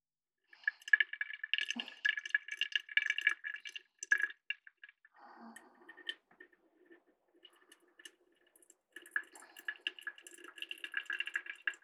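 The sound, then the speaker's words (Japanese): Hot water trickles and drips as it is poured over drip coffee. Many small, faint splashes come in two busy stretches with a sparse, quieter gap between them. “ドリップしなくなってきましたね。ではもう少しお湯を追加していきますか。”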